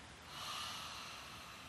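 A person exhales during yoga practice in a single long, soft, breathy rush of air that swells slightly and fades, faint and alone.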